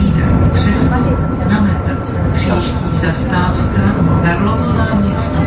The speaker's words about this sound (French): vous embarque à Prague pour terminer cette émission à bord du tram 22